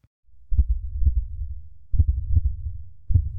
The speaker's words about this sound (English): You know what that is? It's the sound of a heart beating faster and faster.